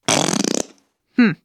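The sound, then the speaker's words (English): A whoopee cushion deflating: a loud, buzzy, rapidly fluttering fart-like blast lasting about half a second, followed after a pause by a shorter, tonal second burst. “Maybe you thought that sound was a fart, but it's actually a whoopee cushion.”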